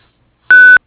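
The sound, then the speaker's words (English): A voicemail recording tone: a single steady electronic beep at one constant pitch, lasting about a quarter of a second, loud and alone against silence. “The administrative office is not available at the moment, sending you to voicemail. Begin speaking at the tone.”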